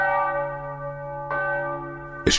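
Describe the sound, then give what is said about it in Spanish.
Iron church bells tolling: three distinct strikes, each a loud metallic clang that leaves a sustained, richly layered ringing tone slowly decaying between the blows. “Escuchad el tañido de las campanas, campanas de hierro.”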